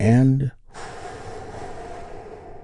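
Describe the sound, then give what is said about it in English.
A deep inhalation taken during a guided relaxation exercise: a short voiced sound, a brief pause, then a long, steady, airy intake of breath lasting about two seconds at moderate volume. “We do that by taking a big, deep, healing breath with me right now.”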